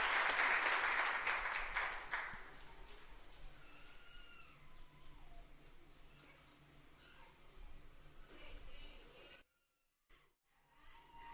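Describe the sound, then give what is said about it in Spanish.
Audience applause at a trova performance: loud, dense clapping for the first couple of seconds, then dying away into scattered quieter sounds, with a brief silence near the end before low noise resumes. “Aplausos. Pues muchas gracias, público inteligente y conocedor.”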